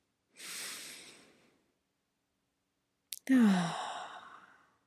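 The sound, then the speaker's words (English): Deep breathing: one long, hissing inhale through the nose, a pause of silence, then a slow, breathy exhale through the mouth carrying a soft sighing hum that fades out gradually. “Together we're taking a couple of deep breaths. Inhaling through our nose and exhaling through our mouth. One more time.”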